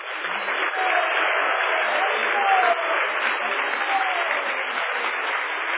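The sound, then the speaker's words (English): Audience applause after a presentation: a steady wash of many hands clapping, holding at an even loudness for about six seconds. “Let us thank Radhika Raman Prabhu by giving him a loud hand.”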